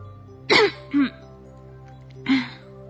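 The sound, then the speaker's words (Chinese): A voice imitates a sick hedgehog coughing: two raspy, throaty coughs close together, then a third after a pause, over a faint low hum. “刺猬先生咳嗽着说”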